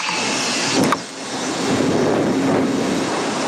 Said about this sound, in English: Did you hear that? Well, it's the sound of the stepper motor singing.